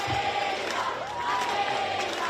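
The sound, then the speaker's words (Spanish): Schoolchildren in a Madrid school playground chant the mayor's name. Their young voices merge into a dense, continuous roar with sustained shouted tones throughout. “ante la sorpresa del alcalde de Martínez Almeida, que ha visto y ha escuchado cómo los alumnos del colegio Esclavas del Sagrado Corazón de Jesús coreaban su nombre.”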